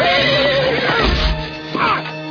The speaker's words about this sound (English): Naughty horse. Naughty. He's just impossible. Really, I can't take him anywhere.